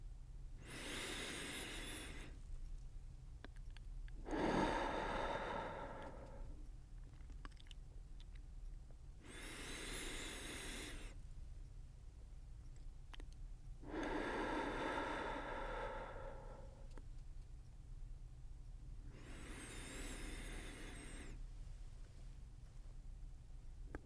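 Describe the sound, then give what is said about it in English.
Slow, deep breathing, in through the nose and out through the mouth. Five long, airy breath sounds alternate between thinner, hissy inhales and fuller, lower exhales, each followed by a quiet pause, with no talking. “and exhale through your mouth, releasing the breath fully. Take a few more breaths in this way.”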